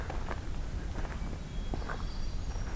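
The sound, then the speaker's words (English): Footsteps of a person walking outdoors: a few soft, irregular steps, faint beneath a constant hiss of background noise. “Of course, I was walking during that.”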